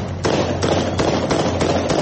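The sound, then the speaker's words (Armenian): Celebratory gunshots fired into the air by soldiers in Afrin: several sharp, loud reports in quick succession over a constant dense background roar. “Ներքևում հավաքված թուրք և արաբ զինվորականներն այդ ամենը ողջունում են Ալլահը մեծ է բացականչություններով և օդարձակած կրակոցներով։”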